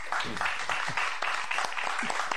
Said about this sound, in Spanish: Un aplauso para Javier.